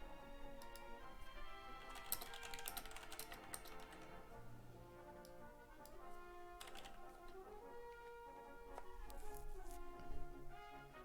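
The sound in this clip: Faint typing on a computer keyboard while writing a direct message to a phone company on Twitter in a web browser: many quick, irregular key clicks over a steady tonal background.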